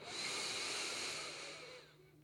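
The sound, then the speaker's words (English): A deep, slow inhale during a guided breathing exercise, a soft airy hiss that holds steady for about two seconds before tapering off, faint and with no other sound. “Let's do that one more time. Inhale.”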